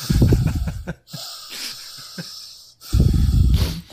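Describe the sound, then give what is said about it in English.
A voice imitates intense, heavy breathing squeezed against microphones during hugs: loud, rasping, wheezy breaths in two long bursts, with quieter puffs and a short pause between them. “they kept having these really intense hugs where their microphones were clearly like squeezed up against their mouths, so it would cut to them hugging and it was just them breathing really intensely being like”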